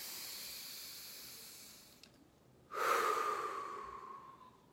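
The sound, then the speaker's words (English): A single deep breath taken alone: a faint airy hiss, then a sudden loud rush of air that fades slowly over about two seconds. “So I'll take a deep breath.”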